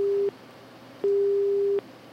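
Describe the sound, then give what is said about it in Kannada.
A telephone disconnect tone sounds after a radio phone-in caller's line drops on a network fault. A steady mid-low beep ends abruptly at the start, then after a pause a longer beep of the same pitch plays alone. “ಕರೆ cut ಆಗ್ತಾ ಇದೆ, ಈ network problem ಅನ್ಸುತ್ತೆ.”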